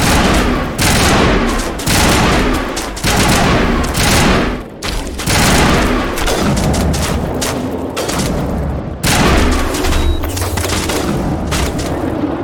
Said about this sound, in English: Let's try this, the better gun.